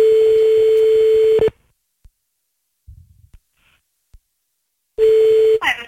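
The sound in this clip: A telephone ringback tone sounds as a call is placed again. A steady mid-pitched tone lasts about a second and a half, then a few seconds of near silence with faint small noises, then the tone starts again before being cut off.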